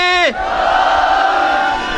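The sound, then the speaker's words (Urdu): A crowd roars its response to the Naara-e-Haidari religious slogan. A single voice gives a brief, falling shout at the start, then a loud, sustained collective cry from many voices fills the rest. “ان سب کو سنانے کے لیے نعرہ حیدری.”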